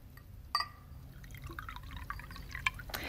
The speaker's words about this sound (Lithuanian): Atnešiau saldumynų, likerio. Na, nereikėjo, Anėse. Jums galbūt, o man ne. Aš smaližė, o jūs įpilkite likerio.